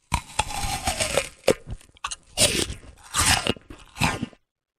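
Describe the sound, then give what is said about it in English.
Someone bites into an apple with a run of sharp, crisp crunches followed by wet chewing crackles. The bursts come in uneven clusters with short gaps between them, and the sound stops abruptly near the end. “The sound is somebody biting an apple. Is the sound someone biting an apple?”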